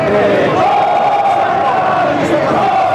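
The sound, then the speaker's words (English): Peruvian special forces cheer outside a fallen embassy after a hostage rescue: a loud, continuous mass of men's voices shouting and whooping together, held steady for the whole stretch without a break. “Ecstatic special forces, led by then-president and commander-in-chief Alberto Fujimori, echoed the sentiments of all Peru as they cheered outside the fallen embassy and sang a song of victory.”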